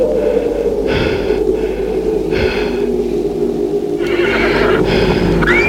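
A saddle horse neighs and snorts in several harsh, breathy whinny bursts over a constant low rumble.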